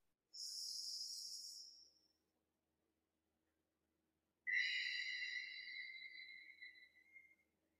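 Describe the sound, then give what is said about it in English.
Two people take a deep breath together during a breathwork self-care session: two long, soft, airy breath sounds separated by a pause of about two seconds, faint and without talk. “should we take a breath together yeah let's take a breath”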